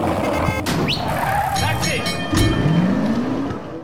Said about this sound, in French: je vous propose qu'on en commence tout de suite avec un petit jingle sur petit historique du permis de conduire.